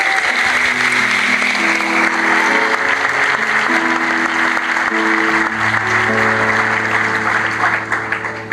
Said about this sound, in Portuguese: Vou aplaudir o Senhor por isso.